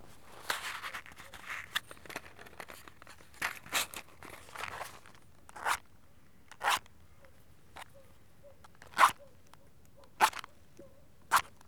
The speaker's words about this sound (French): Attends, je craque une allumette. Ça va te faire un peu de lumière.